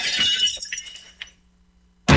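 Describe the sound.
Glass shattering at the opening of a 1980 album: a bright crash fading into scattered tinkling shards and quiet, then a sudden loud new burst of breaking glass at the very end.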